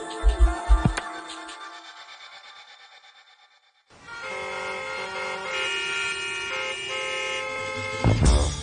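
Car horns honking in an after-work traffic jam, overlapping sustained blaring tones that hold steadily and swell near the end, following a fading musical passage.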